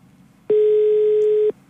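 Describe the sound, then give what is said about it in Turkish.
A telephone ringback tone while calling a listener: a single loud, steady mid-pitched beep lasting about a second, alone over a faint background. “Açarsa telefonu. Evet. O da galiba Alo.”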